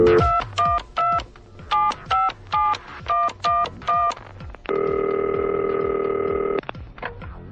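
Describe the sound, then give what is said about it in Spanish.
Telephone keypad tones on a radio studio phone line: a quick series of short beeps, then a long, steady ringing tone for about two seconds, followed by a few more brief tones. “ya nos encontramos a través del panel telefónico para recibir la primera llamada”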